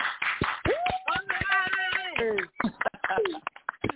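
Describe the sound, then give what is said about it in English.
Sparse hand claps welcome a guest on a talk show. The sharp, scattered claps come in among a voice speaking and calling out. “So everybody, please put your hands together for our guest, Talakai. Come on now.”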